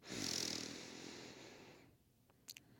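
A deep breath drawn in through the nose during a guided group breathing exercise, a soft, airy hiss lasting almost two seconds that gradually fades, followed by a couple of faint clicks.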